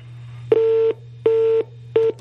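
Line-disconnected tone after a dropped phone call: three steady, mid-pitched beeps, each under half a second, separated by short gaps over a low background hum.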